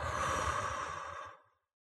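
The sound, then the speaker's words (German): A single deep exhale through the mouth during a relaxation breathing exercise, a soft breathy whoosh lasting about a second and a half before trailing off into silence. “Atme ganz tief ein und über den Mund aus.”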